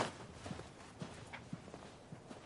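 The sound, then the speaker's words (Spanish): Footsteps of a hooded person walking away, a faint, steady series of soft steps at roughly two per second. “La persona se gira y camina. Frank sale y se pone el anorak.”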